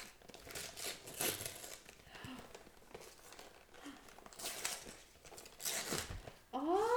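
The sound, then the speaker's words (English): Wrapping paper crinkles and tears as a gift holding a zoom camera lens is opened, in irregular, fairly faint rustling bursts. “I can't get this opened. Rip it.”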